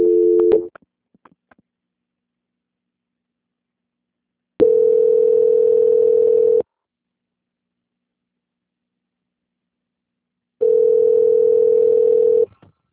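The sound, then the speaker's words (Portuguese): Telephone line tone heard during a call transfer: a steady, unchanging electronic hum sounds in a few long bursts, each about two seconds, separated by stretches of silence. “Só um minutinho, a ligação vai ficar muda por alguns instantes. Tá bom. Transferência.”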